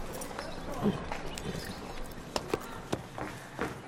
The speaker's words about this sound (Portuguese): Uma das mulheres desce de um cavalo.